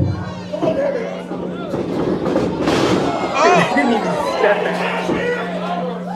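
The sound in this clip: A wrestling match plays as a wrestler powerbombs opponents onto the back seats back to back, with a crowd chattering and shouting, a broad crash, and a steady low hum under constant voices.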